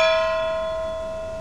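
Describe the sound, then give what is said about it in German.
A bell rung to call guests to a meal: one clear metallic stroke that rings on and slowly fades, alone with no voices. “Gong, die Glocke hat zweimal geschlagen, also wenn die Radioreise zum Essen gerufen wird, dann lässt sie nicht lange auf sich warten.”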